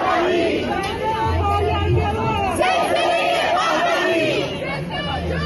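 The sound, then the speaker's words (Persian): Crowd of protesters at a rally supporting the people of Iran and protesting executions, many holding placards: a steady, dense hubbub of overlapping voices and chatter that stays loud throughout. “مردمی که امروز اینجا جمع شدن از شهرهای مختلف و حتی کشورهای مختلف دور هم اومدن.”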